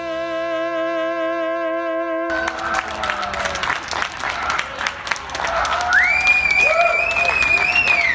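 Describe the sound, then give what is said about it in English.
Clapping and clanging pots and pans from a New York City crowd cheering essential workers in spring. A sustained harmonic tone opens, then a dense, irregular din of claps and metallic bangs fills the rest, growing slightly louder toward the end. “This was the sound of New York City in the spring, clapping and pots and pans banging in celebration of what we've come to call essential workers.”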